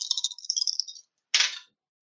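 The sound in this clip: Dice rolling during a tabletop roleplaying game: a light rattling clatter for about a second, a short pause, then one sharp tumbling clack that fades quickly.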